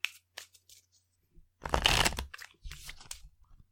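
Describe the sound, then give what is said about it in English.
A tarot card is pulled from the deck with a papery, sliding rustle lasting under a second, surrounded by a few soft taps and shorter rustles. “So we'll each pull a card for what area of her life.”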